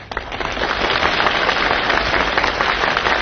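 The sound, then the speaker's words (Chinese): Thunderous applause from a large audience fills the whole stretch as a dense, steady roar of clapping hands, starting with a few claps and swelling almost at once to full intensity. “你听管仲的掌声，掌声如雷呀”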